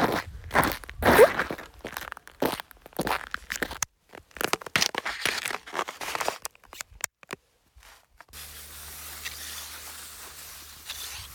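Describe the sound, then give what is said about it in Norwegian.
Footsteps in ski boots on slippery, icy ground on the way to a ski trail. Many uneven crunching, scraping steps follow one another, then give way to a quieter steady hiss. “Neste utfordring blir å prøve å overleve den 100 meter lange gåturen bort til skiløypa på glatta i skisko.”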